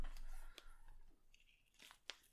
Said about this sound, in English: I'm just going to figure out where I want this wrap of tape.